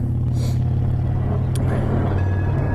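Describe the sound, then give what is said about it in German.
Low, heavy rumble of a cable car passing close by: a steady droning roar with a couple of brief hissing whooshes over it, and no voices. “Oh, das war ja so eine Kabelbahn. Das klang jetzt aber ganz schön nah.”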